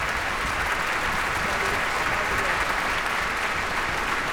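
Sustained applause from a concert audience in Eldborg concert hall: a dense, steady wash of many hands clapping at an even, full loudness with no breaks.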